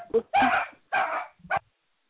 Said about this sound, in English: Sorry about that. Oh, that's a dog.